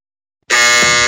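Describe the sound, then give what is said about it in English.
A buzzer sounds after a brief silence: one loud, sustained, harsh electronic tone with a rich harmonic buzz that holds steadily to the end. “Oh my god. Wow. That was the buzzer for my feelings.”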